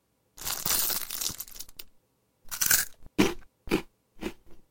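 Crunchy bites and chewing of cookies and candy come in a long first burst, then several shorter crisp crunches separated by brief pauses.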